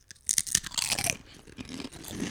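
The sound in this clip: Crisp crunching of folded stuffing-flavoured tortilla chips from a Thanksgiving stuffing snack: a cluster of sharp, bright bites up front, then softer, duller chewing that trails off, with no talking.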